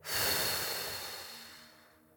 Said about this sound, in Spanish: Exhala en 5, 4, 3, 2, 1. Suéltala.